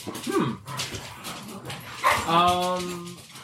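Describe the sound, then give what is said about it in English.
Dogs whimper and yip, with a drawn-out, high whine in the second half, while people talk over them. “Somebody get those dogs out of there.”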